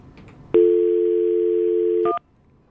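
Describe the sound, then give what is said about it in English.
A telephone number is dialed: a steady, low dial tone hums for about a second and a half, then a quick flurry of brief key tones cuts it off. “You guys keep talking while I dial. It's a surprise call coming.”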